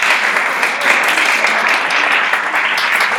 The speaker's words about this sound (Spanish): Ya está. Bien, un aplauso.